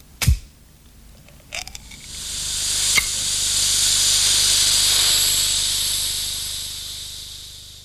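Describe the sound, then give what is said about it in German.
A metal tin can opened by pulling its ring gives a few sharp clicks, then a long, loud hiss that swells and slowly fades. “Vielleicht machen Sie die Dose doch mal auf. Da an dem Blechring müssen Sie ziehen.”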